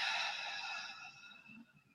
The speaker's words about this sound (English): simply inhaling through the nose for 2 and exhaling through your mouth for 4